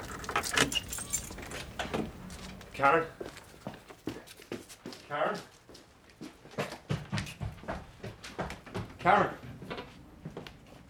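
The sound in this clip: Keys jangle in a few bright metallic bursts as a door is unlocked, mixed in with people talking.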